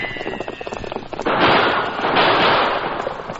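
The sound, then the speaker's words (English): Gunshots ring out during a horseback chase. A few sharp cracks open over rough noise, then a dense, loud, steady roar of noise swells and holds. “In spite of the flying bullets, which came dangerously close, the great Silver held his swift pace and gradually closed in on the man ahead.”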